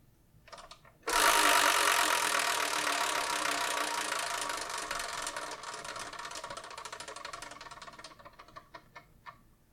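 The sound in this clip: A numbered wheel is spun to pick a manga. It opens with a sudden loud rattling whir of rapid ticks that gradually thins and slows into scattered separate clicks before stopping.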